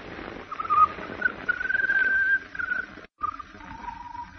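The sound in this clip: A bird sings a peculiar song of thin, wavering whistles that glide and hold for long stretches over a low background hiss. The song breaks off briefly near the end and then gives way to a softer, lower tone.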